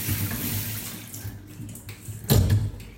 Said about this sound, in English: Cursory rinse around with the shower head. There we go. Let's wash whatever those hairs are down the plug hole.